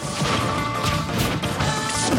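A smash attack hitting in a video game, with dense, loud crashing and thwacking impacts that pile up continuously for the whole two seconds.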